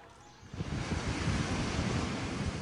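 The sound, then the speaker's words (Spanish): Waves break on the coast outside El Aaiún, a broad, continuous roar of surf that swells up after a quieter opening and then washes on steadily without clear individual crashes. “Las olas rompen en la costa, a las afueras del Aaiún.”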